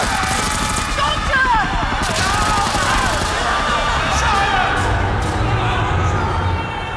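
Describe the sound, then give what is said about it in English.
Sustained rapid gunfire in a science-fiction drama, following a shouted order to open fire. The dense crackle stays loud and steady throughout, with some crowd noise mixed in. “Open fire! Take him!”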